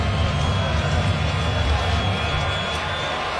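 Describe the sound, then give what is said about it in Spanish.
A crowd at a postseason major league baseball game keeps up a steady wash of cheering and murmur at a moderate level. There are no sharp peaks or single clear shouts. “El público alentando.”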